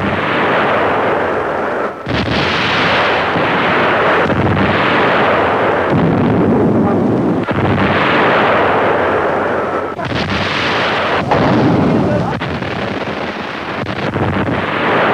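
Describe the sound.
German navy warship guns fire a salvo, a loud, continuous rumbling roar of heavy blasts that run together with several sharp onsets, and no voices.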